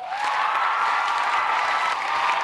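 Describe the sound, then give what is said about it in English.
Rapturous ovation from a sold-out crowd at a Harvard Books author event in the First Parish church in Cambridge, Massachusetts: a loud, unbroken roar of clapping that stays steady from start to finish. “Believe me, that rapturous ovation was not for me.”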